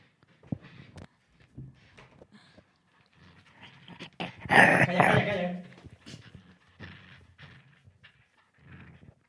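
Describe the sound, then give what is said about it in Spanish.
A female dog growls and snarls while playing with a rope toy. The growling comes in short, irregular bursts, with one louder, longer stretch midway, and human voices are briefly heard. “Bueno, pues esta perra es la que tenemos aquí.”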